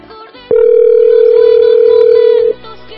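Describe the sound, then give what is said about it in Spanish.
A telephone dial tone sounds while a call is being reconnected: one loud, steady, unbroken tone lasting about two seconds that starts and stops abruptly, with only faint background sound before and after it. “espérenme tantito, voy a reconectar esa llamada con Yolanda.”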